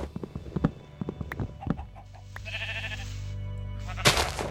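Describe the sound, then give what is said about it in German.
Sheep stuck in a tree bleating in the video game Minecraft, a few short bleats among other clicky game noises and a steady low hum, ending with a sharp, bright burst. “Hier sind Schafe im Baum eingeklemmt.”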